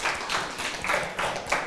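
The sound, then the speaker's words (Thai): Classmates applauding a student in a classroom, soft clapping in loose, repeated bursts at a low, fairly steady level. “ปรบมือให้กับเพื่อนค่ะ”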